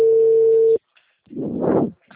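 A telephone ringing tone on an outgoing call: one loud, steady, pure-pitched tone lasting under a second, then silence and a stretch of soft noisy rustle.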